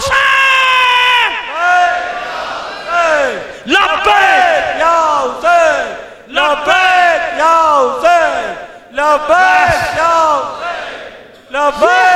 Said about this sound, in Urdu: اپنی ماں بہنوں سے کہہ رہا ہوں، نعرہ لگاؤ میرے ساتھ، لبیک یا